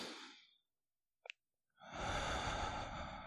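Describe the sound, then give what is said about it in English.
A slow, deep breath drawn in during a yoga breathing demonstration, a long steady airy rush that holds to the end. Before it come a shorter breathy sound, a silent gap and a faint click. “slow counts in and slow counts out, which take about roughly, depending on the person, 4 to 7 seconds, like a breathe in”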